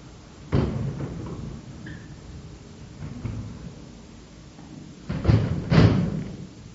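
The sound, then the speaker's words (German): A window being shut: one thud near the start, quieter shuffling and creaks, then a couple of heavier knocks and bangs close together near the end, with no talk. “sollen wir hier das Fenster zumachen?”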